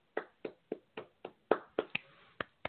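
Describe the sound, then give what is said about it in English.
Hand claps from a sports commentator celebrating a record hockey teddy bear toss: ten sharp, dry claps at a steady, moderate pace, faint and alone. “I know hand claps come across good, poorly on a mic, but I just had to.”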